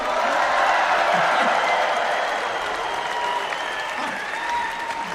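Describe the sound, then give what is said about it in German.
A concert crowd of 85,000 people cheering, screaming and applauding in a dense, sustained roar that is loudest early on and eases slightly toward the end. “Man hört 85.000 Leute schreien”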